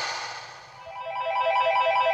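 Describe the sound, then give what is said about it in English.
A phone ringtone plays as part of a song, its bright repeating electronic tones rising out of the music and growing louder and more insistent toward the end. “Hey, whose phone's ringing? Oh, it's mine. Hang on, let me just get rid of that. Just kidding, it was part of the song.”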